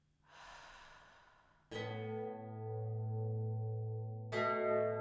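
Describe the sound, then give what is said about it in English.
A slow, airy breath drawn in during a guided mindfulness exercise. It is followed by a sustained, ringing bell tone, which is struck again near the end. “I'm closing my eyes and breathing in and out.”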